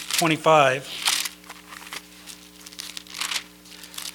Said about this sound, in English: I love that rustling of the pages.